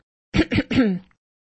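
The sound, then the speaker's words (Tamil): A man's voice imitates a slight throat clearing in three short, rough, voiced bursts, the last one drawn out a little longer. “தொண்டையை சிறிது கனைத்துக் கொண்டு”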